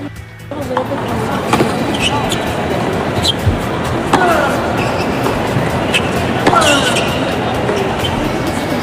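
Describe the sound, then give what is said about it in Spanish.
Carlos Alcaraz strikes a tennis ball in practice on Arthur Ashe Stadium court. A few sharp, crisp hits stand out over a steady background wash of noise and crowd murmur. “Este es el sonido de la bola golpeada por Alcaraz ayer.”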